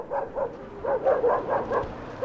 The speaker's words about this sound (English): After dark, dogs bark in the Gir district of Ulaanbaatar